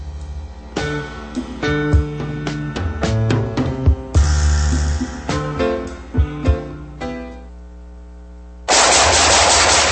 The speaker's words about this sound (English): Nice shooting.